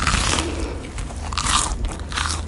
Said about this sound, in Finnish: Onpa tämä hyvä. Vielä toinen haukko. Oho, söinkin koko leivän.